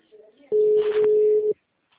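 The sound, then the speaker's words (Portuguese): A telephone call rings out as a single steady ringback tone lasting about a second, then cuts to silence. Faint low sounds come before the tone. “Dá um toque pra ela. Ela vai pegar seguro? Ela consegue parar o aparelho?”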